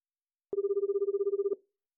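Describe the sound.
A single ringback tone from an outgoing telephone call: a steady, mid-pitched buzz with a rapid pulsing flutter that lasts about a second and stops abruptly, heard alone.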